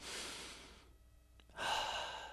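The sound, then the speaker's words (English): A deep breath drawn in, long and airy, then a short quiet pause before a louder stretch of breathing resumes; no talk. “Now let's all take a deep breath together”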